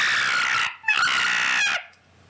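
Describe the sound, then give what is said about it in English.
A pet cockatiel gives two long, shrill, piercing calls, the second following a brief break, with no voices and quiet afterward. “that's my mom's cockatiel. We have a cockatiel named Chippy, and it sounds like this.”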